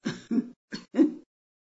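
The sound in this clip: A restrained, muffled cough breaks out in four short, low bursts separated by brief gaps, the last burst the strongest, followed by silence.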